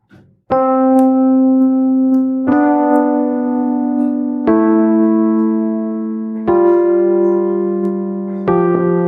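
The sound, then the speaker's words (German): Notes of a chromatic scale are played back as a music example: five sustained, evenly spaced notes, each about two seconds long, in a clear tone rich in harmonics, with no voices. “Hier habe ich in diesem Beispiel eine chromatische Skala drin. Die habe ich auch tatsächlich als Beispiel. Das heißt also, die könnte ich mal testweise abspielen, damit man weiß, wie das klingen würde.”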